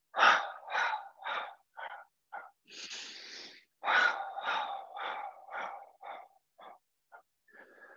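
Breathy exhalations during a standing exercise with bouncing on the heels: a series of short, forceful huffs, a longer drawn-out breath midway, then another run of huffs that grows fainter toward the end.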